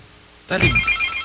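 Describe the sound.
A phone rings with an incoming call: after a quiet moment, a bright, tonal ringtone starts abruptly and keeps sounding steadily to the end.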